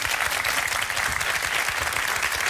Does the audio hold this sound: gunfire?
no